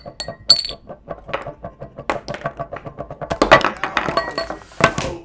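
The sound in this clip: A thrown ashtray clatters and clinks in a rapid, irregular run of many sharp hard knocks and rattles, loudest in a cluster past the middle before settling into scattered lighter taps.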